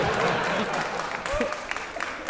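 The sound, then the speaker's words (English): Lukewarm applause from a live audience, thin and uneven clapping that fades in strength over a couple of seconds while a voice talks over it. “Your lacklustre applause is noted.”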